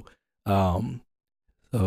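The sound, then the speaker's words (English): A heavy breath blown straight into a microphone with no pop filter: one loud, breathy, half-voiced exhale like a sigh, then a short silence before another breath begins. “excuse me for the hard breaths on the mic.”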